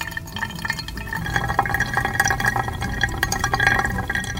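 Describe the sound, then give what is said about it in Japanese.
Hot water pours in a steady stream over pour-over coffee, set on a digital scale. A continuous, even trickle and splash runs through the whole stretch, with no talk. “ここではだいたい 100ml 100g までお湯を入れていきます。”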